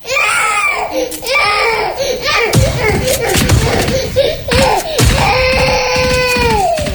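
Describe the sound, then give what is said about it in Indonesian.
A child crying hard, with loud, sustained wailing and sobbing in a string of long, drawn-out cries that rise and break, the final wail holding steady before dipping in pitch. “Dari tadi anak nangis, Bapak nggak dengarkah?”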